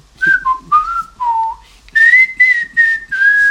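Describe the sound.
A person whistles a rock band's song, a string of clear, pure notes in several short phrases. Lower notes dip and slide in the first half, then higher, held notes follow, loud and alone.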